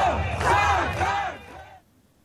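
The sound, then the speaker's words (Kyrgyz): A crowd at a political rally in Tbilisi shouts and cheers in support, loud overlapping voices rising together before cutting off abruptly near the end, leaving near silence. “Силер кел деп чакырар замат мен жетем дегенде чогулгандар кыйкырык сүрөө менен колдошту.”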